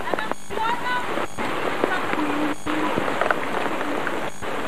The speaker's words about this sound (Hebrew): איזה גשם.